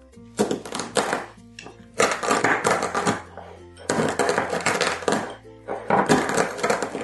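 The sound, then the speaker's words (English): Coffee beans are crushed with a mortar and pestle in a small bowl, giving rough crunching and grinding noise in four long, loud bursts with short pauses between them. “This method is the mortar and pestle. First up, put some coffee beans in a little bowl, then get something heavy. We're going to grind them.”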